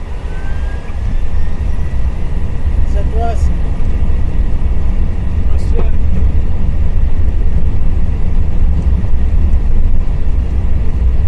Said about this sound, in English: Nomad 290, wind 110 degrees 3 knots, runway 17 right, clear for takeoff.